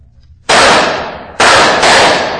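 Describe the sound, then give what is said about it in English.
Three gunshots fired toward barrels, each a sharp, loud crack that trails off into a long, rough, decaying roar. The second and third shots come close together. “Now, we'll take a chance. What do you mean, Holmes? Fire in that direction. Yes, right.”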